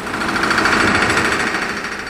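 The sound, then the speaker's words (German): Riveting hammers pound on the slipways of a Weser shipyard in 1926, a loud, continuous, rapid metallic rattling that never lets up. “Von den Helligen herüber dröhnt das ohrenbetäubende Klopfen der Niethämmer.”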